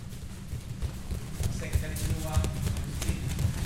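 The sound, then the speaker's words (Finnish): The feet of about two dozen children jog in a circle on a padded floor during a karate school warm-up, making a soft, continuous patter of muffled thumps. Voices can be heard in the background. “Täällä parin tusinan lapsen jalat joggaavat ympyrää pehmustetulla lattialla.”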